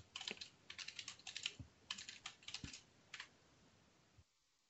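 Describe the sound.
Computer keyboard typing while PowerShell commands are entered: many quick, light key clicks come in short bursts with brief pauses, then stop into silence.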